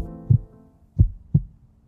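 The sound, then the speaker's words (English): Heartbeat-like low thumps, three dull muffled beats with uneven spacing, the last two closer together, faint and alone. “That means if one person's heart is beating like this,”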